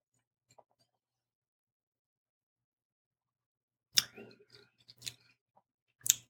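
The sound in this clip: Mouth sounds of sipping and tasting red wine: three sharp, crisp slurping bursts with softer smacking and swishing between them, all fairly quiet, with no talk.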